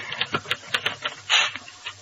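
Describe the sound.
Keys clack on a typewriter in many quick, uneven strikes. A louder, longer rasping burst comes partway through, and then the light tapping resumes.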